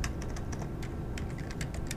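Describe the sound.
A computer keyboard is typed on, reportedly using the neck, giving many faint, irregular light key clicks.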